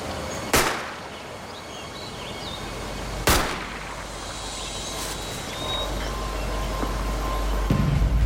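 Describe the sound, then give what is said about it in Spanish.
Two sharp gunshot bangs ring out in a forest as a man is shot at the foot of a tree. Each is a sudden loud crack with a short decay, spaced a few seconds apart over a steady low rumble. “Luego le disparó a Roxy Rodell.”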